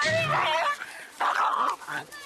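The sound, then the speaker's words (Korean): An excited dog whimpers and yips as it strains to approach another dog, its high, wavering whines rising in short bursts over a person talking. “만나자마자 강아지에게 관심을 보이는 듯한 만두. 안 돼, 만두 안 돼. 흥분해서 다가가려고 합니다.”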